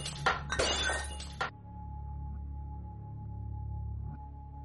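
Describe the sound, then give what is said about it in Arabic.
A glass mirror breaks and falls into a sink: a few bright, crashing shatters with tinkling fragments in the opening second and a half, followed by a steady low hum that continues faintly to the end. “فتحت الكتاب. مجرد ما فتحت سمعت صوت كسر إزاز.”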